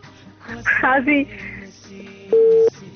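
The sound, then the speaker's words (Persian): A disconnected phone call: after a stretch of muffled, warbling line noise, a single loud, steady busy-signal tone sounds briefly, then cuts off. “تماس دوست ما قطع شد”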